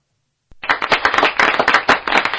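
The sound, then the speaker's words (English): Sharp applause for a successful live show breaks out after about half a second of silence. Many hands clap in a dense, crackling burst that holds steady to the end. “applause for a successful show.”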